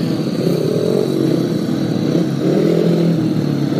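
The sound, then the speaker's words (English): Speedway motorcycles rev their engines before a restart, a loud continuous drone of several bikes whose pitch wavers up and down without a break. “Preparing their bikes ready for the restart with the starting marshal Chris Katz getting them all ready to start.”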